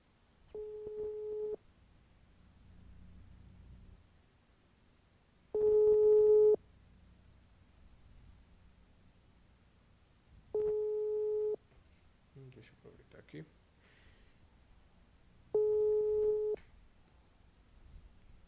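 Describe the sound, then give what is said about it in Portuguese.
After a dropped phone call, a telephone line tone sounds four times as one-second beeps at even intervals. There is near silence between them, and a brief voice comes in once between two beeps. “Caiu a ligação, gente. Nem caiu a ficha, já caiu a ligação.”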